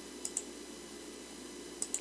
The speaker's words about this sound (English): Now, for the city of Glendale, you would type into your web browser, glendaleaz.gov. The page loads